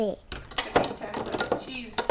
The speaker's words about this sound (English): Grater for cheese.